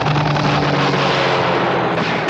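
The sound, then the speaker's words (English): Gunfire during a mock military attack on a busy coast guard station: a continuous, loud, dense roar of blasts with no quiet gaps. “Give me my gun. Get the gun! Got a gun. And he fires it.”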